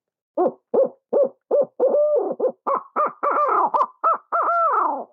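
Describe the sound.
Owl locator call used for turkey hunting, a hooting caterwaul: many quick hoots rise into higher, louder, wavering double notes toward the end, heard alone.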